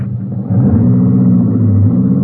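Engine of an approaching car: a low, droning rumble that swells slightly after the first half second, then holds steady and fairly loud to the end.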